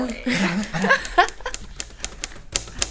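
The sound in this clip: Typewriter keys clack in a quick, irregular run of sharp strikes, with voices and a bit of laughter heard at the start before the typing takes over.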